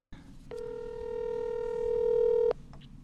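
A telephone call rings out as one steady electronic ring tone lasting about two seconds, then stops abruptly, with no talk over it.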